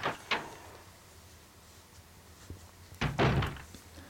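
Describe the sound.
A door opens in a zombie survival-horror video game: a short, dull thunk near the start, then a louder, heavier thud with a low rumble about three seconds later, with quiet ambience between.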